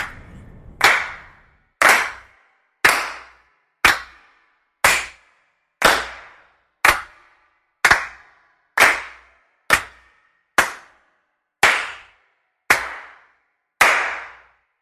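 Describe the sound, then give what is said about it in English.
Single hand claps from a sample library, recorded one at a time: fourteen sharp, crisp slaps spaced roughly a second apart, each with a short fading tail and silence between. “Future Samples presents Claps Sample Library.”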